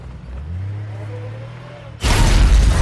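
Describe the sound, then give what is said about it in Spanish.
A missile strikes a 4x4 on a bridge and it explodes in a fireball: a sudden, loud, broad roaring blast that cuts in after a voice speaks and sustains to the end. “Un misil golpea el 4x4 y estalla una bola de fuego.”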